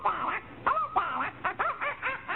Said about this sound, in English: There's a parrot over there. Isn't it cute? Where? Oh, yeah, in that cage.